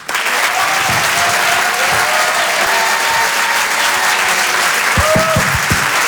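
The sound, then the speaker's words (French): Comedy club audience applauding and cheering as a comedian is called to the stage, a loud sustained roar of clapping laced with whistles and shouts, holding at full strength throughout. “Je vous demande de faire un maximum de bruit, s'il vous plaît, pour Arturo.”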